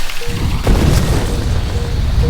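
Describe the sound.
A grenade explodes in a video game. A loud, abrupt boom breaks in with a deep, sustained low rumble, adds a sharper burst shortly after, then rolls on steadily to the end.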